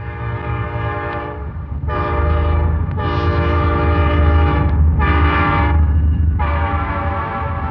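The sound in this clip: A train passes and sounds its horn in a few long, loud blasts separated by short gaps, over a deep, continuous rumble of the wheels and cars.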